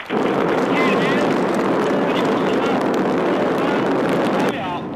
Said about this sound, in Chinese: 9时整，火箭在轰鸣声中腾空跃起，直入苍穹。